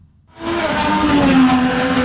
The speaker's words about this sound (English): 25 drivers roaring through the Capitol's streets.